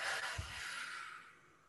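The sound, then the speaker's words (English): One long exhale, as if blowing out a candle, during a slow breathing exercise: a steady breathy hiss with a soft low bump near the start, fading out over under two seconds. “And then when you're ready, another inhale with the flower to the count of 6. Hold for 3. Blow out the candle.”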